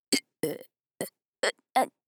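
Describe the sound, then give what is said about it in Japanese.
Five short, voiced burps in a row, each a brief belch separated by pauses, with no talking between them. “ゲップ止まらない。”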